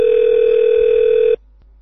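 A steady, loud telephone tone sounds on an open line after the other party hangs up during a heated call. It holds one even pitch without pulsing, then cuts off abruptly near the end into faint line hiss.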